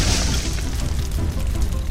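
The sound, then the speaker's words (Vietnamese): A nuclear reactor explosion sound effect: a loud, deep, sustained roaring rumble that holds steady for the whole stretch, with no distinct single blast. “một phút sau đó, một tiếng nổ long trời lở đất xé toạc màn đêm yên tĩnh.”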